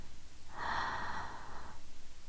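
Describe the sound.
A deep, slow breath: one soft, airy swell of air that rises and fades over a steady low background rumble. No voice is heard.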